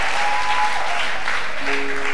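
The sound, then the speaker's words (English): Audience applause during a church service celebrating a newborn boy's dedication: dense, steady clapping fills the whole clip at an even, fairly loud level, with no voices over it. “May men clap for you the way you are clapping now.”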